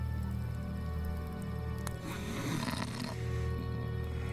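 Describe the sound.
A man snoring in his sleep: a low, rasping, rumbling snore that stays steady and fairly loud throughout, with no talking.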